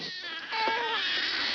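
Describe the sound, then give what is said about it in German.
Babies crying, heard as noises from a submarine: a continuous thin, high wailing cry with a steady tonal line. It is fairly faint and grows slightly louder after the first half-second. “die Geräusche von dem U-Boot hören sich an wie Babyschreie.”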